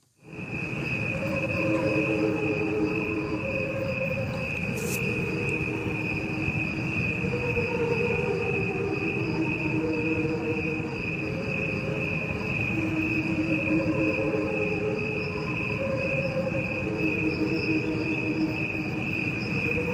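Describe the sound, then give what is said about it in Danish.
Crickets chirp in a steady, unbroken high trill that stays loud from start to finish. A slowed-down version of the same recording plays alongside it, adding a lower, pulsing layer and a dense murmur underneath. No one speaks. “Hearing is a recording of crickets.”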